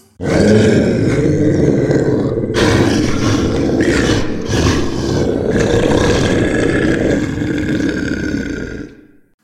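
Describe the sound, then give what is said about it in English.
A monster growl sound effect for a Dungeons & Dragons mimic: a loud, continuous, low rumbling roar with a grunting, gurgling texture that lasts about nine seconds and then fades out. “you like that, huh? That's the sound of a mimic.”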